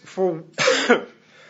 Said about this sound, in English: I don't think either one of us are contagious right at the moment, but we can't get rid of this doggone cough.